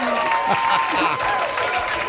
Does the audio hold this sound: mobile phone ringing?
no